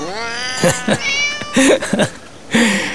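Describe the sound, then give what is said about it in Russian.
Pet cats meow insistently, wanting their dinner: a quick series of loud, high-pitched meows, some short and sharp, one drawn out and wavering, with brief gaps between calls. “Мои кошки тоже мечтают об ужине. И всем своим видом дают понять, что умрут, если их мечты не исполнятся сейчас же.”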